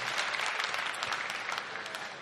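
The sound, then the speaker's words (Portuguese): Congregation applause for the Lord during a Portuguese-language church service: steady, fairly faint clapping from many hands, with no break in the sound. “Quem está decidido, dê uma salva de palmas bem forte ao Senhor.”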